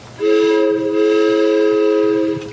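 A train horn sounds one sustained blast, a steady harmonic tone held for about two seconds, loud and alone before cutting off.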